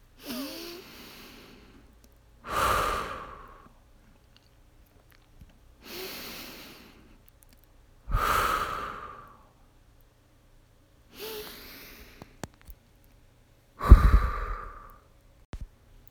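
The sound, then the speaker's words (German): Slow, deep breathing in and out, six soft airy breaths spaced two to three seconds apart, each swelling and fading, heard alone with no talk. “Dann atme wieder ein paar Mal tief ein und aus.”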